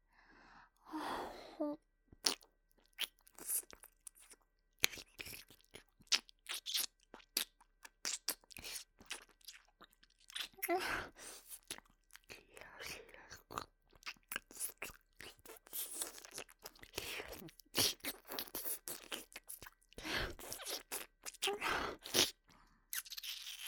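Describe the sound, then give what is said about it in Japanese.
Wet crunching, chewing and smacking mouth sounds as a voice imitates eating an ear, with many quick irregular crackles and clicks throughout. “今度はもっとお耳の深いところまで食べちゃおうっと。いただきます。”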